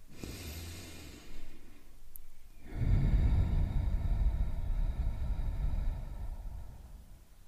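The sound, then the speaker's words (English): A slow, deep breath is drawn in and let out, soft and airy, spread over several seconds. A longer rush of breath fills the second half. “Let's begin, like always, with a deep breath in and a deep breath out.”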